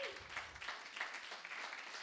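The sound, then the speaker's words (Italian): Faint applause from a church audience welcoming a group of young visitors from Bari, with dense, steady clapping that swells slightly in places. “Rialzate, gli fate un bello applauso.”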